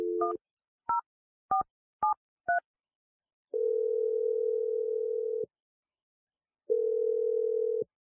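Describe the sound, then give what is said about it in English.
Touch-tone dialing of a telephone number: five short dual-tone beeps in quick succession, then two long, steady ringing tones separated by a pause, all clean and without talk. “So I'm going to dial Chelsea's number right now.”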